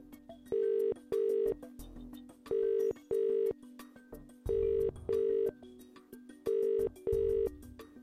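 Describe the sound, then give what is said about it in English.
Ringing tone of an outgoing phone call: four evenly spaced double beeps sounding over a low steady hum and faint background noise. “Dial him up. Here we go.”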